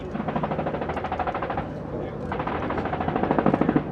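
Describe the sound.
Small arms fire crackles in the distance during a National Guard training exercise where Blackhawk helicopters have dropped off troops. It comes as rapid, regular bursts of sharp pops that run steadily at moderate loudness.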